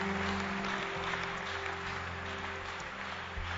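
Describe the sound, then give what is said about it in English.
Faint, steady hand clapping from a church audience forms a continuous wash of claps, with a low hum underneath. “Okay, okay, clap, clap your hands. Just clap.”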